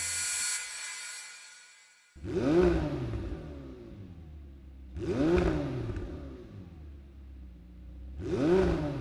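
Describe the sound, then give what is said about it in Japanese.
Engine revs from a McLaren 720S British sports car come in three separate throttle blips, each rising sharply in pitch and then falling back, with a low idle rumble between them. “マクラーレン 720S イギリスのマクラーレンが作り出した究極の1台”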